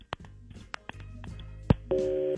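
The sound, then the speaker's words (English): A telephone call tone as a call is placed: a few sharp clicks and faint rustling come first, then a steady, even tone with harmonics starts near the end and holds to the close. “let's make the phone call on War of the Roses.”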